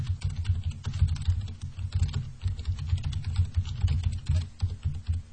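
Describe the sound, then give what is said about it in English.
Rapid typing on a computer keyboard: many dense, continuous keystroke clicks with a busy, uneven rhythm, fairly loud and steady throughout, with no talking. “I'm going to type this in.”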